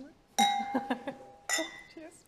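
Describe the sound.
Glasses clink together in a toast: a few sharp, bright clinks with ringing tones in two bursts, the second after a short pause, alongside brief voices.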